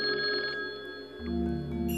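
A telephone rings with steady electronic tones that hold for about two seconds, with no voices.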